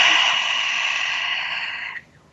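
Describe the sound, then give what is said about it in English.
A single deep breath, a long, steady, airy rush that holds for about two seconds and then cuts off abruptly. “So let's take a breath. A really big one.”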